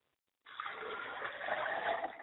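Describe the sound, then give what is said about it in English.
Liquid poured out as a ritual libation: a steady, soft gushing splash that begins abruptly after a brief silence and runs on without a break. “We pour libations to Oladulamare in the honor of Akamare. We like to pour libations to Obatala, my father's spirit. Drink well, Father.”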